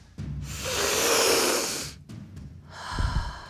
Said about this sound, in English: Breathe deep. We're going to take some deep inhales right here.